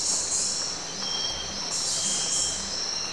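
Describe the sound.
Old-growth rainforest ambience captured by field recorders: a dense, shrill, continuous insect chorus with cricket-like trilling and faint chirps, steady in loudness throughout.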